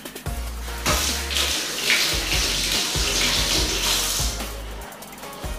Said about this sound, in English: Wash my hand.